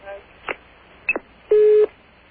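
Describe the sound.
A telephone line tone sounds once as a short, level mid-pitched beep lasting a fraction of a second. A few faint clicks come before it.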